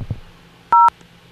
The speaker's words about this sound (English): Spell the last name using the keys on your touch tone phone, followed by hash.